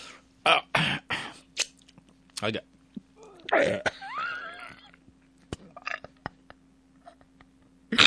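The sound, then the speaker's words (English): Coughing and choking from someone whose Tab diet soda went down the wrong pipe: many sharp, irregular coughs and throat-clearing bursts, with a strained, wheezing vocal gasp partway through. “What the hell was that? The tab went down the wrong pipe. Oh, it hurts.”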